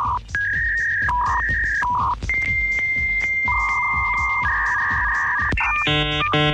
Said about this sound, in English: I don't miss that crazy grating sound of that dial-up. Wait, I got it right here. Remember this sound when you dialed up the internet?